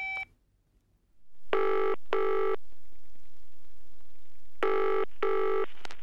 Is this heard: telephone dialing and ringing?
yes